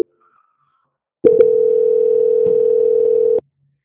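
A telephone call-transfer tone during a phone call: after a short near-silent pause, one loud, steady single-pitch tone holds for about two seconds and then cuts off abruptly.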